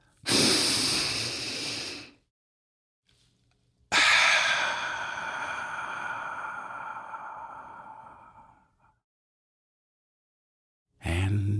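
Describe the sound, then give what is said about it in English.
A slow deep breath: a loud airy inhale of about two seconds, a short pause, then a long, steady exhale of about five seconds that fades away, with the start of another breath at the very end. “let's take a deep breath.”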